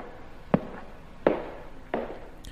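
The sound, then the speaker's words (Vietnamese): Footsteps walk toward a room door: three slow, evenly spaced steps, each a distinct soft thud separated by quiet pauses, heard alone. “tiếng bước chân đi đến cửa phòng của Nam.”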